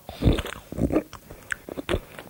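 Biting into and chewing chocolate: a run of crunchy, crackling bites and chews, several close together with short gaps, fairly faint and alone with no talk.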